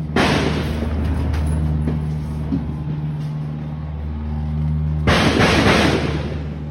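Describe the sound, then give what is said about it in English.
Heavy booms of mortar shells landing during a siege: two loud, broad blasts about five seconds apart, with a steady low rumble and hum filling the gap between them. “Every so often, you can hear the sound of mortar shells landing, and you can see the people in the video flinching.”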